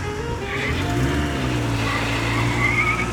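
A car pulls away fast in a getaway, its engine roaring loudly and climbing in pitch, with harsh tyre noise throughout.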